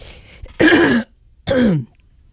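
Someone clears their throat twice in loud, rough rasps separated by a short pause, the second shorter and sliding downward in pitch.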